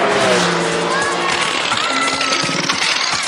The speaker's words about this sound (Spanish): Parece que está fallando el autito.